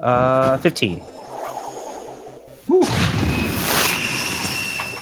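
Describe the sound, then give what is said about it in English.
A Magic Missile spell sound effect from a tabletop fantasy role-playing game: after a brief voice, a sudden bright burst strikes and trails into a loud, sustained rushing, crackling hiss that lasts to the end. “Well then, I cast Magic Missile! A classic!”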